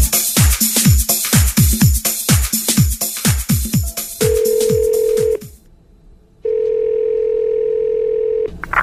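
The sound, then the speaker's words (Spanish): Telephone ringing tone on a line: after a run of quick, sweeping descending chirps, two long, steady, loud tones sound, separated by a short silence. “¿Quién me está llamando? Alguien me llamó.”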